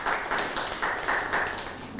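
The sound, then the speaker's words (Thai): Students clapping hands in a classroom make a dense, continuous patter of many hands that stays fairly faint and even throughout, with no clear pauses. “เก่งมากปรบมือให้เพื่อนหน่อยค่ะ”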